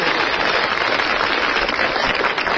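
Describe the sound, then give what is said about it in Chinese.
Audience applause at a crosstalk comedy performance, a loud, dense and unbroken wash of clapping that stays level from start to finish with no voices on top. “您说像您这么没皮没脸的跟观众直接要掌声，观众好意思不给你鼓吗？”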